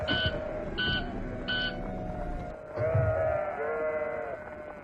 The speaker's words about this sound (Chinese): 那边有只掉队的小羊，好像受伤了